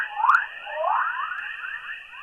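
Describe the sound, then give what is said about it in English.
Sonification of solar wind particles trapped in Earth's magnetic field: warbling, sweeping electronic tones with an echoing, chorus-like shimmer over a steady high hum, moderately quiet and free of voices. “That's the sound of particles in the solar wind getting trapped in our planet's field.”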